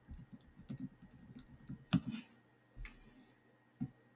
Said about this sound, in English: Because when you type in salamander fish, do you know what you find on Google? I don't know. Let me try it out.